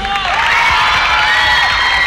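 Loud cheering and applause from an audience greeting a singer of tropical-rhythm music on the main stage of a television show, with continuous high-pitched shouts and whoops over steady clapping throughout.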